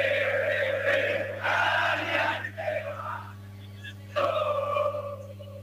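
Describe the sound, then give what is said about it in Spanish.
Argentine barra brava football fans chant in the stands, their massed voices surging in a few loud waves over a steady low hum, easing briefly between swells. “Impecable, estás metiendo el público argentino. Ahí está el público argentino,”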